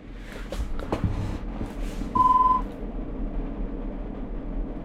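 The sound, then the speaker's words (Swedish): A single telephone ring sounds as one short electronic beep of about half a second. The tone is clear and level, and it stands alone above a quiet background. “Det var bare ett ring, så då fortsätter vi.”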